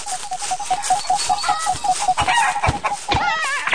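A chicken clucks in a video game with many short, clipped clucks in a quick, even rhythm. Busier, warbling calls follow near the end.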